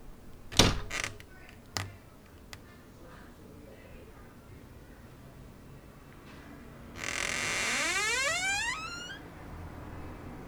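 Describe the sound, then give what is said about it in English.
A creaking door swung open and shut by the wind outdoors in spring. A couple of sharp knocks come early, then a long, squealing creak rises in pitch near the end over a quiet background. “wind opening and closing this creaking door”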